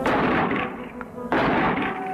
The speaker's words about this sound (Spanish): La tienes que coger con cuidado y con fuerza, así. ¿Tiro ya? No, no, un momento, quieta. Apriétala bien contra el hombro. ¿La ves? Sí. Anda, tira.